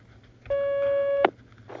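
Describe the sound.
A single steady telephone line tone as a call connects. It holds at one pitch for under a second, ends with a short click, and plays alone.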